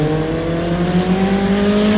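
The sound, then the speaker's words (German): A car's engine drones on a country road in a loud, steady hum with strong low tones, its pitch creeping slowly upward as it pulls along. “auf der Landstraße fährt ein Auto und dahinter setzt ein Motorrad zum Überholen an.”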